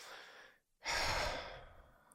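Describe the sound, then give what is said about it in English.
One slow exhale through the mouth, a breathy rush that swells quickly and then tapers off gradually. A fainter breath comes before it, followed by a short silent pause. “And then inhale slowly through your nose and then exhale through your mouth slowly.”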